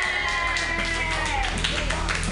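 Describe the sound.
Audience applause at an open mic comedy night as the next comedian is introduced: loud, steady clapping with a voice talking and cheering over it.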